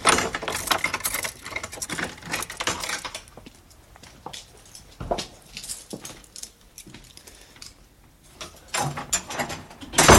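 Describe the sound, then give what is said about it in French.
The door of a historic writer's house is unlocked and opened with irregular metallic clattering, clicking and rattling of keys and lock. It is louder at the start and end, with quieter scraping and knocks between. “je vais quand même vous ouvrir cette porte.”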